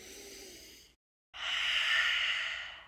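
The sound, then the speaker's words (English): Whispery, throat-constricted breathing demonstrated for a yoga exercise: a soft breath, a brief silence, then a longer, louder hissing exhale through an open mouth that swells and fades. “So the way that we do this is we breathe in and out through the nose. But when we exhale, we create this whispering constriction of the throat. So if your mouth was open, it would look like this.”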